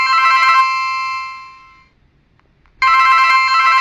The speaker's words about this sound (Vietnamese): nhưng đột nhiên chuông điện thoại reo lên